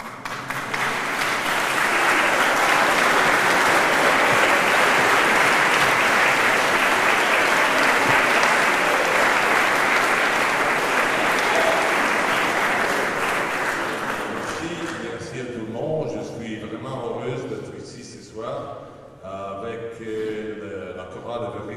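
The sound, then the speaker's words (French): Audience applause for musicians at a public performance, dense, steady clapping that stays loud for about fifteen seconds before thinning out. A voice then begins speaking. “je vous rappellerai donc à vous, public, que la nourriture des musiciens, ce sont les applaudissements. Donc sous vos applaudissements,”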